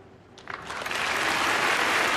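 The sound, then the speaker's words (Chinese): Crowd applause swells in from near silence, growing into dense, steady clapping that stays loud and even to the end. “此处可以有掌声”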